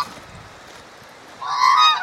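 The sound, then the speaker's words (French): A flock of bean geese calls as it flies overhead. After a quiet stretch, overlapping nasal honks swell in the second half and grow fairly loud. “Alors là, on a un vol d'oies au-dessus de nous, là, regardez.”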